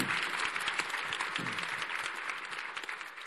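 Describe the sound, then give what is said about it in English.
An audience applauds a panel at a clinical research summit on trust, diversity, equity and inclusion, with dense, steady clapping that runs evenly through the whole clip. “Do we have any questions from the audience? How about a hand for the panel? I mean, that was absolutely brilliant.”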